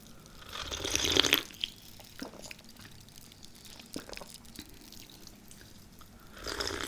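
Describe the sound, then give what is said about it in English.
Someone sips a sparkly, fizzy drink: quiet, close, soft hissing and liquid sounds with a swell near the start, scattered small ticks and drips, and another gentle rush at the end. “Okay, let me drink this.”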